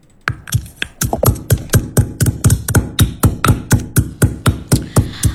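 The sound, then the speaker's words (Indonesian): Squelchy, percussive hits come from slippery tomatoes being squeezed and crushed by hand in a radio mini drama. Many sharp, evenly spaced impacts repeat in a steady rhythm. “Aduh, ini tomat kenapa licin banget sih? Perasaan tadi malam pas buka video tutorialnya di YouTube, kayaknya gampang banget ditekan langsung hancur. Duh, tomatnya malah muncrat ke daster lagi.”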